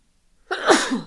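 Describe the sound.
A single sharp sneeze from someone with hay fever, a sudden loud burst that tails off into a breathy exhale, heard alone.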